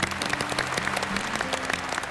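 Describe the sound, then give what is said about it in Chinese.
Audience applause at a Chinese event honouring firefighters. Steady, dense clapping continues throughout at an even level. “把掌声再一次送给奋斗在消防岗位上守护大家平安的人”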